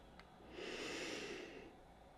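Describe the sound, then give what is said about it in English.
A single deep breath during a guided breathing exercise: soft, airy breath noise swells slowly, holds for about a second, then fades, alone with no talk. “Take a deep breath in”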